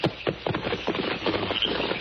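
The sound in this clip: Horses set off along a trail, their hooves beating a quick, steady run of soft thuds that carries on throughout.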